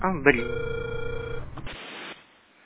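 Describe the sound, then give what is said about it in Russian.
A telephone ringing tone sounding while a call is being dialed: a steady buzzing tone layered with other tonal sounds, cutting out after about two seconds and leaving faint hiss. “Абонент еще не взял трубку. Пока продолжается дозвон”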